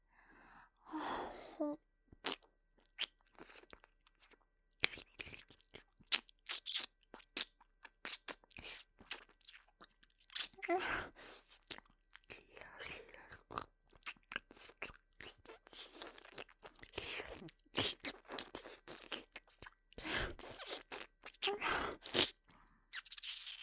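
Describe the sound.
Crunchy chewing and biting mouth sounds in an ear-eating roleplay: many soft, irregular crunches and bites in quick succession, with occasional breaths, heard alone without speech.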